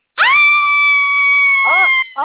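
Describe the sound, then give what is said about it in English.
A person screams loudly with a single high, sustained shriek held at a steady pitch for nearly two seconds. A couple of shorter cries follow. “What, after almost a year, I finally figured out that it's like, you only scream on Monday.”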